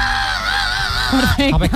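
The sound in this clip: A voice imitating a heavy-metal scream on a Catalan singing-contest panel: a long, strained, wavering high cry, followed by short rough voiced bursts.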